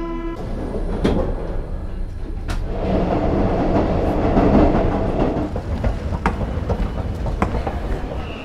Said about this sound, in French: On est à la gare Saint-Lazare et du coup il y a mon train qui va partir bientôt.